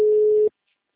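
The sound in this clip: Telephone busy tone after a dropped call: one steady pitched beep lasting about half a second, then it stops abruptly into silence.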